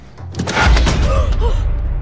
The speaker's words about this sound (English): As she turns to walk away, the window reopens by itself. She closes it again